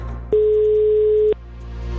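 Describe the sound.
A telephone ringback tone heard while placing a call: one steady, mid-pitched beep lasting about a second. It starts and stops abruptly over a faint low background hum.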